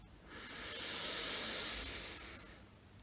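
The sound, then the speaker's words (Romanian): A deep inhale filling the lungs during a guided breathing exercise: one long, soft, airy hiss that swells gradually and then fades, fairly faint and with no talk over it. “Inspirăm adânc și umplem plămânii cu aer.”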